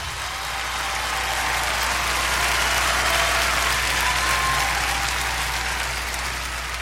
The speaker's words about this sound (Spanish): Un aplauso fuerte a nuestro Dios.